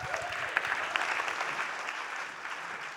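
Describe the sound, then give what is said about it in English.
Audience applause welcoming a speaker to the stage: steady, even clapping from a crowd with a few sharper individual claps popping out, holding at a moderate level throughout. “So put your hands together and welcome Brian Heasley.”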